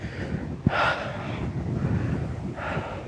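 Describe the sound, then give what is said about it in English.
Wind buffets a microphone tucked under a jacket outdoors, producing a constant low rumbling roar with a few brief louder gusts and puffs; no one speaks. “I've got my microphone tucked under my jacket, hoping that that's helping a little bit. Oh, actually, it feels quite nice to be out in the wind.”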